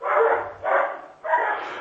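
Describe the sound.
Dogs barking: three loud, drawn-out barks in quick succession, each a harsh burst with a short gap between them.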